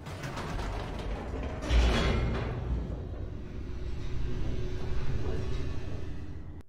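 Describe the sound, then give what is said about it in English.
An elevator moving in a video game gives a continuous mechanical rumble with creaking, grinding texture and a heavier thump early on, then settles into a steady low drone. “Head back up the elevator.”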